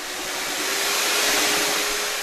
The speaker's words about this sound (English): during my visit, I get to see him mix the melted wax using what looks like an enormous electric egg whisk.